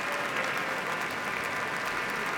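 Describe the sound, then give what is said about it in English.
Standing ovation after a Boston Symphony Orchestra concert, with musicians and soloist bowing: dense, even applause from a large audience, steady and unbroken, with no voices rising above it. “All the musicians of the Boston Symphony now standing as Andres Nelsons and Erin Morley are holding hands, bowing to the audience. They themselves are also on their feet for a standing ovation.”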